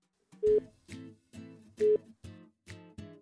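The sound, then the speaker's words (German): A telephone call rings out with six short, buzzy tonal bursts in a steady rhythm. Two of the bursts carry a clear held tone, and no one speaks. “Und dann rufen wir jetzt einfach mal schnell an.”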